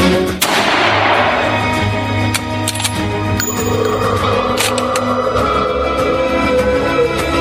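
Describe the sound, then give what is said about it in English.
A miner's rifle fires at a creature: one sharp, loud crack rings out near the start, followed by a few fainter impacts over a low, steady rumble that runs throughout. “One of the miners raised his rifle, took aim, and fired.”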